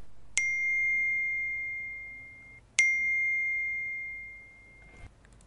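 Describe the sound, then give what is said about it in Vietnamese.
Phone text-message ringtone sounding twice: two bright, high chimes, each with a sharp onset that rings out and fades slowly over about two seconds. A brief soft noise follows at the end. “Nhạc chuông tin nhắn của điện thoại lần thứ hai vang lên.”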